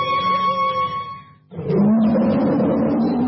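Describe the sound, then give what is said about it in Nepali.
A tiger roar sound effect in a radio station jingle follows a short tonal musical passage, breaking in as a loud, rough, sustained growl that lasts nearly two seconds. “गर्जन छ सधैँ बाघ झैं, radio tiger 99.2 MHz”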